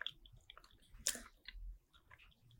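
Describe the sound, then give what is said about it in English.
Quiet chewing of a bite of dark chocolate pressed into white chocolate, with soft, moist mouth sounds and one sharper bite or crunch partway through. “I'm going to take the dark chocolate and push it into the white chocolate. Interesting. And give it a little taste.”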